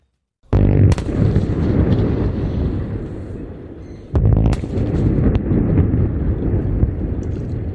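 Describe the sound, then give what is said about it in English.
Two sharp, loud blasts from the controlled demolition of two nearly 170-metre chimneys at a former power station in New South Wales' Hunter region. Each blast sets off a long, heavy rumble that roars on and slowly eases. “That's the sound of two almost 170-metre tall chimneys coming down in a controlled explosion at the former Liddell Power Station in the New South Wales Hunter region.”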